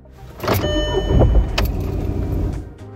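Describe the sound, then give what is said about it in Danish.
A car engine starts with a burst of noise, then keeps running as a steady, loud hum with a thin tonal whine. A few sharper bursts rise above the hum before it eases slightly at the end. “Så er der lyden af, hvordan lyder den, når motoren starter? Den lyder sådan her.”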